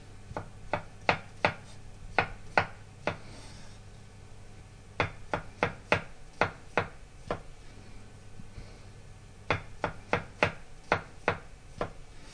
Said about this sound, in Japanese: マッシュルームは軸の部分を落として薄切りにします。軸を取った方を下にしておいて端から薄切りにします。